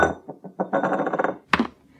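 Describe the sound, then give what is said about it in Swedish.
A drinking glass slides backwards across a smooth table, giving a few short scrapes and then a longer squealing rasp. A sharp bright clink follows, then quiet. “glaset halka bakåt på det här glatta bordet och lillebror halka framåt. Det var tur att det inte var vatten i glaset.”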